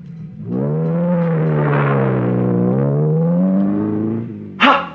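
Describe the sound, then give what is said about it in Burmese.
A car approaching, its engine giving a loud, steady harmonic hum that holds for about four seconds, then a short, sharp burst of noise. “ဟောကားလာနေပြီ”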